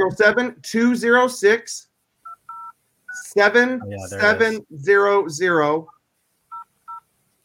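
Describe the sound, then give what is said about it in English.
Telephone keypad tones sound as a number is dialed on a phone held up to a microphone: a few short, quiet two-tone beeps fall in pauses between people talking. “Make sure you dial it into the mic so we hear the boop, boop.”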